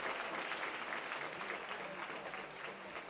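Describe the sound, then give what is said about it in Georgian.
Audience applause fills a large hall after a silent-film screening with live musical accompaniment, a dense, steady wash of clapping that holds at an even level throughout. “დარბაზმა ერთგვარი კინოკონცერტი ოვაციით მიიღო.”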